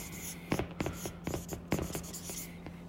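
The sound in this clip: Notes are handwritten with a pen on paper, giving a steady scratching of strokes punctuated by several sharper taps over a faint low hum.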